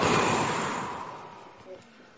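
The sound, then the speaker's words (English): A long exhale as the hands drop during a standing meditation: a breathy rush that starts loud and fades steadily over about two seconds. “Put your hands up. Then let them drop down. And exhale as you go.”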